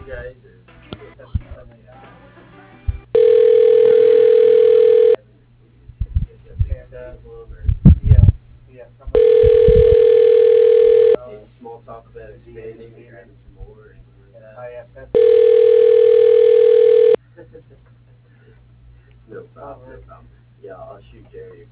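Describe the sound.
A telephone line ringing while a call is transferred: three evenly spaced ring tones, each a steady two-second buzz, with muffled voices in the gaps between them.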